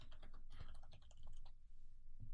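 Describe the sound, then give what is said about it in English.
Typing on a computer keyboard: many quick, light key clicks in an uneven, rapid stream, faint and alone, with a short pause near the end. “Somebody's just typing this.”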